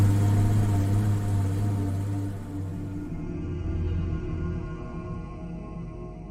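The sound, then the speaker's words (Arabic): A car engine rumbles steadily as the vehicle drives off across the savanna, a low continuous hum that eases slightly in loudness partway through without pausing. “وانطلقت السيارة تنهب الأرض نهبا وتطويها طيا، كما يصر أستاذ اللغة العربية في مدرستي. تعبر السافانا نحو فاصل آخر من قصتنا.”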